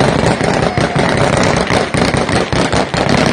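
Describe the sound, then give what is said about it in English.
Gunfire outside the airport in Kabul, Afghanistan, makes a loud, dense crackle of overlapping shots and bangs that continues without pause. “And of course, you can hear the gunshots, so things are going beautifully right outside the airport.”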